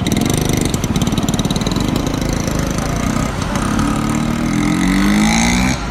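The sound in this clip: Motor vehicle engine on the boulevard Voltaire in Paris, a loud rough rumble with rapid pulsing that climbs in pitch over the last seconds before cutting off.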